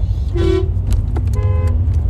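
Car horns honking in highway traffic: a couple of brief toots at different pitches over a steady, loud low road rumble.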